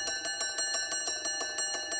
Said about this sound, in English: Then the division bell starts ringing.